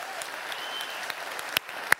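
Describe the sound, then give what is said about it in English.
A church audience applauds with steady, soft clapping that runs through the whole clip, with a couple of sharper claps standing out near the end. “Now he's watching, so make sure we applaud.”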